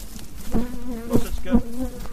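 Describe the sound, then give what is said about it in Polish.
Bees buzz around a person's head and hair, a steady droning hum that swells louder a few times as individual bees pass close. “Siadają mi na włosy, na głowę. Oła, urządliła mnie ta pszczoła w głowę.”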